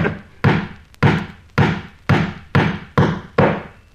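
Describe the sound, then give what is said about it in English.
Hammer blows as an amateur carpenter drives nails: seven heavy, resonant thuds at a steady pace about half a second apart, each decaying before the next, with no talk. “Excuse me should I most inadvertently hit the thumb now and then. I'm only an amateur carpenter. But even as I nail, I can see to shoot very well.”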